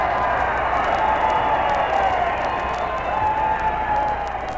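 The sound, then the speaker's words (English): Cheering and applause from a large Democratic rally audience of about 20,000 in the coliseum at Omaha, Nebraska, after a presidential address. A steady, dense roar of clapping and crowd noise runs without a break. “And now, with the cheering of this big friendly audience still ringing in his ears,”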